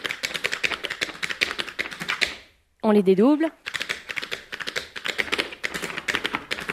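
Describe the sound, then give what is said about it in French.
Tap dancing steps strike the floor in a tap class demonstration: dense, rapid, crisp clicks in quick rhythmic runs. They stop briefly while a voice speaks a few words, then resume just as quickly. “Voilà, et c'est comme ça que se font les claquettes.”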